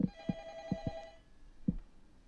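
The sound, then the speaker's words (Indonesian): A telephone rings faintly with a steady harmonic tone that lasts about a second and then cuts off. A few soft, low thumps are scattered around it. “ntar ya Bu, ini ada telepon lagi”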